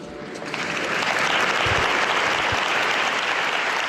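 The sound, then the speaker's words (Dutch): Applause from a Spanish-speaking audience being greeted: dense, steady clapping swells in over the first half second, then holds at an even level without a break to the end. “En dus een begroeting aan de Spaanstaligen die toch moeten applaudisseren, dat hoort er eenmaal bij.”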